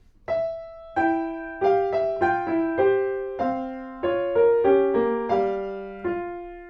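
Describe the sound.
Piano plays a Brahms melody in two-voice canon, the tenor line mostly in the left hand. Many clear struck notes ring and overlap as the two interweaving lines move stepwise in a steady rhythm.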